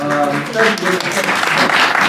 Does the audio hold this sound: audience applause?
yes